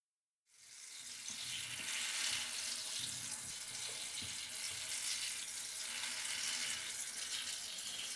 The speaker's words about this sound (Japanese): それでは一旦シャンプーは流してしまいますね。